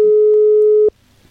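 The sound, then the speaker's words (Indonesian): A telephone line tone sounds as a call connects: one steady single-pitch beep lasting under a second, then it cuts off to near silence. “Dan ini kita coba terhubung barengan sama Bekarso. Oke, kita tunggu terlebih dahulu sobat ya.”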